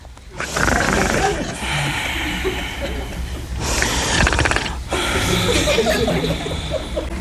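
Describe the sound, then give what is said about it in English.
A voice imitates loud snoring: three long, rasping, rattling snores in close succession, each with a throaty, ratchet-like buzz. “So Adam fell sound asleep, and he was snoring.”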